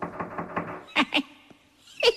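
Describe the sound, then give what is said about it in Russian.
Fingers tap on a door in a few quick, sharp knocks: a close pair, a fainter tap, then another short burst after a pause, preceded by a softer rhythmic patter. “Он подошел к двери и задумчиво постучал по ней пальцами.”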